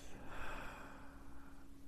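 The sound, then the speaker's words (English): A faint, slow, deep breath is drawn in through the nose during a guided relaxation exercise. It is a soft, airy rush with a gentle swell, with no talking over it. “So just relax. Deep breath.”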